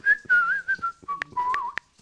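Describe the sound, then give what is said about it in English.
A voice whistles in imitation of an Australian parrot, with warbling, wavering phrases that slide and trill, followed by three sharp clicks near the end. “It's an Australian parrot, man. Can you do it? It was an ethnic parrot.”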